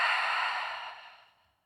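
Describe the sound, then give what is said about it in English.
A single long exhale through the mouth during a guided breathing exercise, a soft, breathy rush that starts full and fades away over about a second and a half. “Inhale, lower belly. Inhale, upper chest. Exhale through the mouth.”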